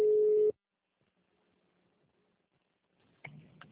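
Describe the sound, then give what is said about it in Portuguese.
A single steady telephone line tone sounds briefly while a call is transferred to an extension, then cuts off into near silence. A voice begins speaking near the end. “Vou tentar passar no ramal dela, tá?”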